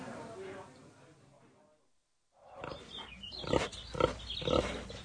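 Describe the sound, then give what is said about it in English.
A Berkshire pig grunts in a series of low, snorting grunts that grow louder in the second half after a short silence. A softer, muffled murmur comes before it. “Oh, we've got a little piglet as well. Come on, you lot. And what breed is she? Berkshire.”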